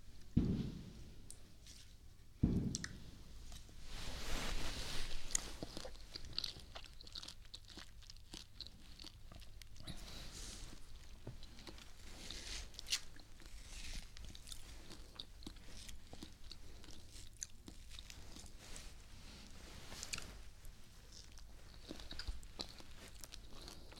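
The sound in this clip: Someone bites and chews something sweet with faint, close crunching: two sharper bites near the start, then many soft, irregular chewing crunches continuing to the end.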